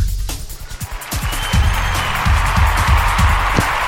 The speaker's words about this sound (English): Oh, my God. That is so much applause. Thank you so much. Really unnecessary.